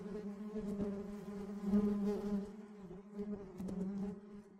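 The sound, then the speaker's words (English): Bees buzzing as a sound effect: a continuous, fairly quiet insect drone with a low, reedy hum that wavers slightly in loudness and pitch throughout. “It's hive mind. These are two bees walking down the aisle. It's time for hive mind.”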